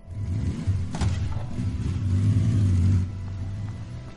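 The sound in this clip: Engine noise from a motorbike pulling away beside railway tracks in darkness: a dull thud early on, then a steady, loud low drone that swells as it revs before easing back.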